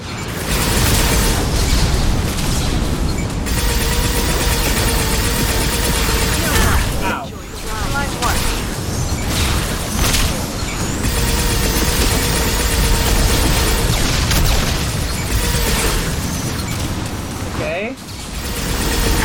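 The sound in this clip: Rocket explosions and combat noise in a sci-fi video game battle aboard a ship: a dense, continuous roar of blasts and bursts with brief dips, under talk.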